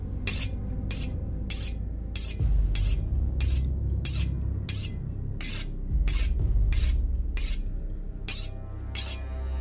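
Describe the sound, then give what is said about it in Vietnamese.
A kitchen knife is pressed hard and drawn over a whetstone kept in a kitchen corner, making many rhythmic, harsh, gritty rasping strokes at an even pace, with a low rumble underneath. “mụ lập tức miết mạnh con dao lên trên cái cục đá mài để ở góc bếp. Âm thanh nghe đến rợn cả người.”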